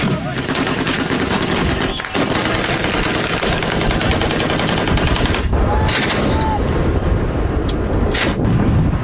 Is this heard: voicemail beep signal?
no